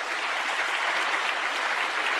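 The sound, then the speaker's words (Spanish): An audience applauds during a church service with steady, dense clapping that holds an even, fairly soft level throughout, with no voices over it. “Aplauso para el Señor Jesús.”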